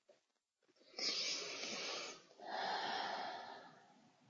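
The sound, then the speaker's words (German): Deep, slow breathing during a guided chakra meditation, with two long, airy breaths. Each is a soft, sustained hiss lasting more than a second, heard alone and quietly with a brief pause between them. “Liebevolle, jedoch kraftvolle Atemzüge durchdringen das Sakralchakra.”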